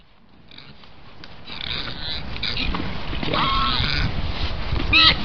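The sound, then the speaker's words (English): A Eurasian wild boar grunts and snorts in a rough, throaty series that grows steadily louder, ending in a sharp, higher squeal. “That's the sound of the Eurasian wild boar.”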